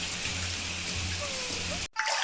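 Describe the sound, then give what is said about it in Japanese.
A shower rinses soap foam off in a hotel bathroom while the bathtub is full. It makes a steady, even hiss of spraying water that cuts off for a moment near the end and then resumes. “バスタブにお湯溜まったみたいだね。じゃあシャワーで泡を洗い流して一緒に入ろ”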